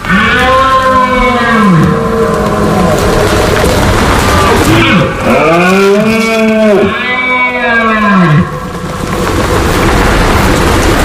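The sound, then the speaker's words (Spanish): Red deer stags bellow in the hills during the autumn rut, giving several deep, drawn-out roars that swell up and fall back in pitch, loud and nearly continuous, with the calls overlapping one another. “habrá empezado a sonar en el monte el sonido de la berra de los ciervos. Ese es el sonido de septiembre hasta bien entrado octubre.”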